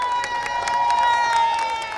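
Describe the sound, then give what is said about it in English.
A crowd holding purple posters cheers outside the Arizona Supreme Court, a steady wash of raised voices and clapping at an even, fairly loud level for two seconds. “A crowd holding purple posters with the slogan "Create Freely" greeted Joanna Duca and Brianna Koski when they emerged from the Arizona Supreme Court.”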